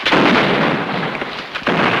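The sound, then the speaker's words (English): Muskets fired in a battle at a blockhouse: a loud booming shot with a long rumbling tail, then another sharp report near the end. “Inside the blockhouse, Smollett's men fire muskets through round openings in the walls.”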